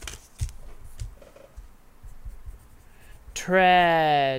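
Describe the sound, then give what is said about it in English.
A pen scratches on paper during a tabletop dice game, with a few quiet strokes in short bursts, and a voice briefly rises at the end. “Let me write this down.”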